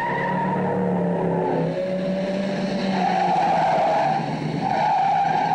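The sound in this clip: Car tires skidding and squealing in a street race, a loud, continuous screech whose shrill tones waver and shift over several seconds alongside engine noise, with no voices.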